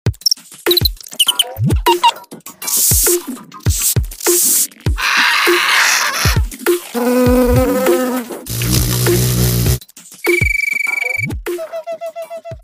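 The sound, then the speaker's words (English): Ultrasonic recordings of insects from France and Madagascar form a loud montage of buzzing, rapid clicking and pulsing chirps and trills. Many distinct insect calls change every second or so, with no talk. “Ultrasonic Insects by Nicolas Titeau features ultrasonic recordings of insects from both France and Madagascar”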